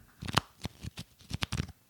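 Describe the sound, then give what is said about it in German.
A stack of wrestling trading cards being shuffled gives several crisp, papery flicks and snaps in an irregular rhythm, moderately loud, with no voices. “Ich habe sogar hier liegen, Achtung, das ist der Sound von Wrestling-Sammelkarten.”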